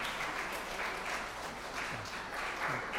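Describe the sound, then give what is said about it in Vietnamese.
A church audience applauds to welcome its pastor, a steady wash of many hands clapping at even loudness throughout with no voices standing out. “Xin hội thánh cho một tràng pháo tay để chào mừng ông mục sư quản nhiệm.”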